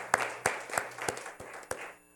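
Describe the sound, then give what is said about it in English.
An audience claps hands in praise. About six sharp claps fall in a steady, even rhythm, quite faint, and the last one fades out. “Let's give the Lord another hand clap of praise for his word.”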